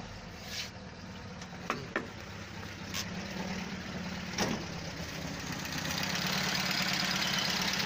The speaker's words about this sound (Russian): И вот как моторчик работает относительно ровно. Не чихает, не пердит,